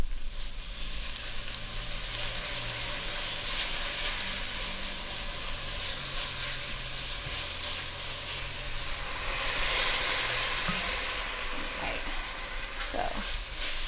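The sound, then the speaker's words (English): Ground lamb fries in a little olive oil in a pan, giving a steady, dense sizzle that carries on evenly for the whole stretch with no talk over it. “I've got ground, natural ground lamb. I'm going to put just a tiny bit of olive oil in my pan.”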